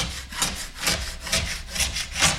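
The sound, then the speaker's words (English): A plastic scraper scraping excess wax off newly waxed skis in a home garage, a series of rhythmic, rasping back-and-forth strokes, each a gritty rubbing swell in steady succession. “He picks up a plastic tool to scrape off the excess.”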